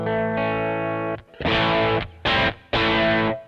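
Distorted electric guitar through a Kemper Profiler with the booster switched off: one thick, harmonically rich chord rings for about a second, then three shorter loud chords follow, each cut off sharply.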